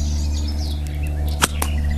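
Whip crack from a whip being swung forward by someone learning to use it. One sharp snap stands out over a steady low hum, with a quicker, fainter snap just after.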